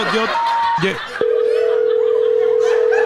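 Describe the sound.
A steady, unbroken telephone tone follows a call that was hung up abruptly. It cuts in loud and flat after a moment of talking and holds unchanged to the end.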